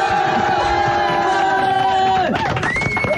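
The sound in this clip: Crowd cheering as a standing ovation swells into a broad roar at the end, after a sustained tone slides downward; no talking over it.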